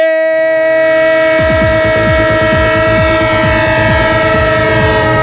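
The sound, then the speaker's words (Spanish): A train passes as a radio jingle effect: a loud, steady horn chord sounds alone at first, then a rhythmic clickety-clack of wheels over rail joints joins it and continues under the horn to the end. “Radio Estadio, el tren de Onda Cero, claro que sí, el tren de lo que está vivo, de lo que no para”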